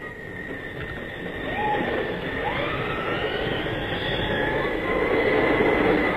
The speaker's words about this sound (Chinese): 注意，开往维也纳的快车到了。